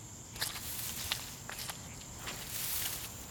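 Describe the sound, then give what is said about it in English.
Soft footsteps push through marshy tall grass, a few faint swishing, rustling steps over a quiet hiss of background noise. “This marshy, tall grass that we're walking through.”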